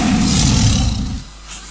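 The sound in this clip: A tiger roars, loud and rough with a deep rumbling low end. The roar holds for about a second before dropping away to quieter noise. No voices are heard.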